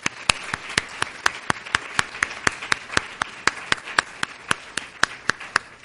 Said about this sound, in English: So a round of applause, please, for Mireille.